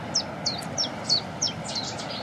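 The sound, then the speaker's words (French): Cetti's warbler singing: a series of short, bright, high chirps repeating at a quick, fairly even rhythm over steady low background noise. “Puis la bouscarde qui chante derrière nous, en plus. Ça, c'est sympa. Ça, c'est un des oiseaux les plus faciles à reconnaître au niveau chant. C'est deux notes.”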